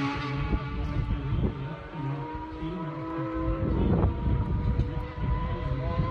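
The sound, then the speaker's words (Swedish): An all-orange motorcycle approaching during a road race, its buzzing engine whine climbing sharply in pitch around the middle, over gusty wind noise. “Fjärran, här kommer något, ska vi se. Helt orange motorcykel.”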